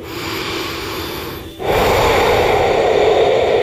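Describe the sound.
Heavy breathing sits close and loud. A long airy breath is followed by a brief pause, then a stronger rushing breath that carries on to the end.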